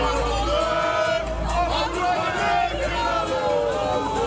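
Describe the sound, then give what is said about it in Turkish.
Galatasaray football fans in Stockholm chant slogans while celebrating their club's championship, a loud, continuous mass of massed voices with rhythmic surges throughout. “İsveç'te Stockholm'de Galatasaray bayrağı dalgalandı. Sarı kırmızılı taraftarlar sloganlar attı.”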